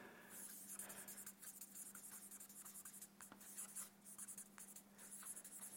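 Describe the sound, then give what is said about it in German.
Handwriting with a pen makes quiet, irregular scratching strokes, many short scrapes following one another in an uneven rhythm. “Okay, der Koran. Ich schreibe mal so, Koran und die früheren Bücher.”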